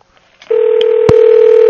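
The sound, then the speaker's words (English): An outgoing telephone call rings with no answer: after a short silence, a steady, unbroken tone holds to the end, with a couple of faint clicks during it. “All right, so Funky Zone does not answer.”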